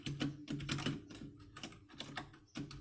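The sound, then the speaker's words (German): Typing on a computer keyboard: many quick, clicky keystrokes fall in irregular bursts with brief pauses between them, fairly faint and with no talk. “Ich schreibe alles mit Caps Lock.”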